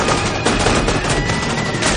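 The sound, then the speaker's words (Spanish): Machine gun fire in a war film battle scene: loud, rapid automatic gunfire that runs without pause, with dense, crackling bursts of shots overlapping one another throughout. “Los rebeldes llegan a raudales, mientras Waters y sus hombres disparan contra ellos.”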